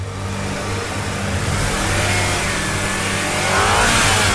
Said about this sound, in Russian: Серега завел двигатель и надавил на газ.